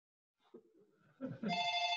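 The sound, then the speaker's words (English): A telephone rings with a bright, steady, tonal ring that starts after some faint low rustling and thumps and holds to the end. “You have a phone ringer once in a while too, do you? There, the phone's done now.”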